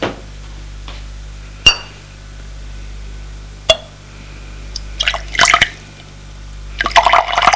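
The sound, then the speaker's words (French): A glass bottle is set down among other bottles and glassware clinks: two sharp, separate knocks, then quicker clusters of light glassy clinks and taps toward the end, with no voices. “Elle pose la bouteille qu'elle a prise. Elle la met avec les autres et prend une autre bouteille. Avec un verre.”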